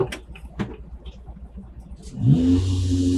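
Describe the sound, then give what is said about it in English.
The engine of a tractor-mounted water pump that fills a towed tank: a low rumbling idle, then the engine picks up and rises in pitch into a loud, steady mechanical drone that holds to the end. “What you're hearing there is the sound of the pump on Jackson's tractor that will bring the water into the Dragon tank Edward's pulling.”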